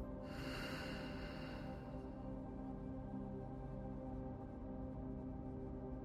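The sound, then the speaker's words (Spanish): A single audible breath during a breathing exercise: a soft, breathy rush lasting about two seconds over a steady low drone, which then continues alone. “Respira. Inhala. Y exhala.”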